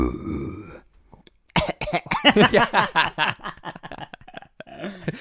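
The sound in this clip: Harsh coughing from someone with a bit of jam biscuit stuck in the throat. A rapid, loud string of many choppy bursts follows a quieter stretch and then fades into a few weaker coughs.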